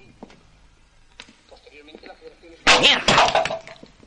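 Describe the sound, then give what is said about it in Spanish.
Metal rod striking a napkin holder at a bar: two loud, clattering metallic hits in quick succession, following a stretch of quieter background sound. “Golpea un servilletero con la vara de metal”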